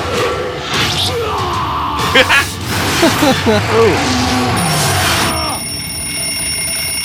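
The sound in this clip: A bell rings to mark the end of a fight: a bright, steady, sustained ringing tone that enters late and holds to the end, following a stretch of loud yelling voices over busy background noise.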